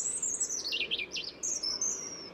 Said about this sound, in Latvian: man šķiet, ka sarkanrīklītes dziesma atšķirt no citām ir diezgan viegli, tikai to ir ļoti grūti aprakstīt.